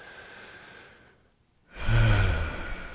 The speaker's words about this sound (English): Let yourself take a nice big deep breath